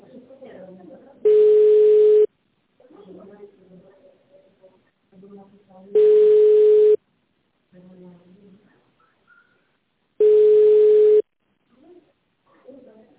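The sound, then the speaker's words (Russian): Telephone ringback tone while an automated system connects the call: three steady, one-second tones evenly spaced, with a recorded voice speaking in the gaps between them. “Оставайтесь на линии. Система соединяет вас.”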